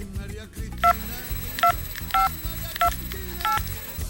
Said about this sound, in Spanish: Un momentito que voy a hacer una llamada.